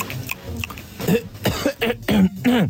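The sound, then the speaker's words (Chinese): Coughing from a person right after tasting a home-cooked dish: a rapid series of several harsh, raspy coughs with some throat clearing, in irregular bursts separated by short gaps, with no talk. “那你干嘛咳嗽啊？”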